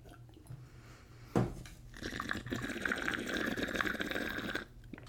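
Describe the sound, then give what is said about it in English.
Water bubbles in a bong as it is smoked, giving a steady gurgling burble that builds and holds for a few seconds before stopping, fairly faint overall. “Let me hit this. That was me trying. I didn't have any liquid in my mouth. Oh, your bong sound is so good, though.”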